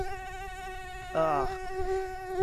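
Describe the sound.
A mosquito's thin, high-pitched whining buzz holds a steady pitch throughout. A voice briefly exclaims partway through.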